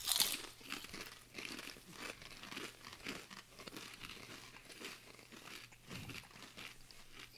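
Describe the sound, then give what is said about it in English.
A bag of Zapp's Evil Eye potato chips crinkles and crunches as it is handled, a continuous rustle of crisp, papery bursts that runs without pause through the whole stretch. “All right, so here we go. Zapp's Evil Eye potato chip.”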